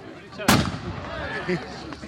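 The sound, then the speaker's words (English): A large gun fired up into a tree during a wassailing ceremony in Gloucestershire to drive off evil spirits: one sharp, loud blast with a short decaying tail, followed by faint voices. “This rather large gun is going to be fired off now. Let's get rid of those last evil spirits up in the tree there”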